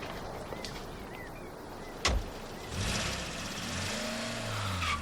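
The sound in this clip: A van drives away: a single sharp thump is followed by an engine that starts and runs with a steady, rough hum.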